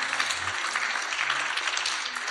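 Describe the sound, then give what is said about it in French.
An audience bursts into steady applause, many hands clapping in a dense, even patter at moderate loudness that carries on without a break. “applaudissez un petit peu.”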